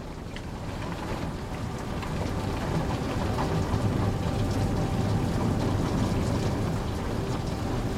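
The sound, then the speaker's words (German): Rain patters outside a window in a dense, even wash of drops, swelling slightly at first and then holding steady with no pauses. “Draußen prasselt der Regen.”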